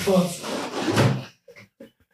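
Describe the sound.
A freezer compartment door shuts with a few soft, brief clunks just after a stretch of talk, then quiet.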